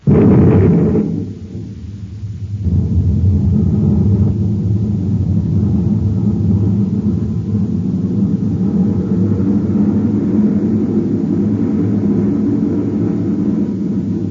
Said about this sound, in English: Stand by to fire rockets. Half G acceleration. Standing by, sir. 1/2 G. Fire rockets.